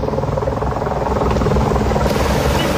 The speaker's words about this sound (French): 400 pompiers qui luttent sans relâche depuis hier soir, épaulés par des hélicoptères bombardiers d'eau